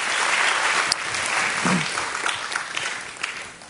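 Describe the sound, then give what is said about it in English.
A church audience clapping their hands in praise during a worship service: dense, sustained applause that thins and fades toward the end. “Can you give the Lord a hand clap of praise?”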